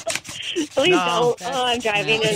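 Two styrofoam cups rubbed together squeal and squeak in a few shrill, harmonic-rich bursts that grate unevenly throughout.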